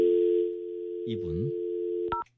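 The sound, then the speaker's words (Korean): Telephone dial tone plays as a radio host calls a listener live on air. The steady, even tone runs throughout, with a brief voice partway through and a short keypad beep near the end. “제가 여기서 바로 생방송 중에 이 전화번호가 제 앞에는 뜨거든요. 그 전화로 바로 겁니다.”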